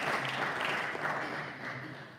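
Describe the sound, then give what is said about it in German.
Applause and clapping come from the audience at a livestreamed church service. The dense, steady patter is fairly quiet and thins slightly toward the end. “Gebt den beiden mal einen Applaus.”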